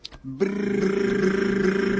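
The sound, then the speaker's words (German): Tongue trill made with the mouth: a voiced, rolled buzz that starts after a brief soft lead-in and then holds steady and loud, rapidly fluttering, until the end. “Oder man kann das auch machen, Mit der Zunge zum Beispiel so.”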